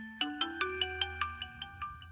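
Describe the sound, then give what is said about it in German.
A phone ringtone sounds alone as a run of about ten evenly spaced electronic chime notes. The notes are quick and bright and grow slightly softer toward the end. “Wenige Tage vor Abfahrt klingelt Lins Telefon.”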